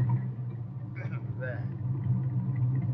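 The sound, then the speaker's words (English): A truck motor runs with a steady, low rumbling drone, and a voice breaks in briefly partway through. “You go start the motor.”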